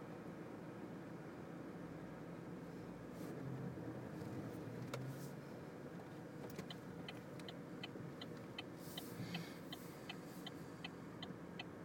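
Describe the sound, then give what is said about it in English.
Car turn indicator ticking as the car pulls off, a regular series of crisp, even clicks that begins partway through over a steady low hum of engine and road noise. “Indicator sounds good, doesn't it?”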